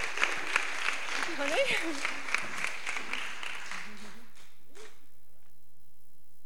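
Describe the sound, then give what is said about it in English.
Applause from an audience welcoming a woman to the stage to give her testimony at a faith gathering, a dense wash of clapping with voices talking over it, thinning and fading away in the last couple of seconds. “So give her a massive welcome because she's going to come and give her testimony to us.”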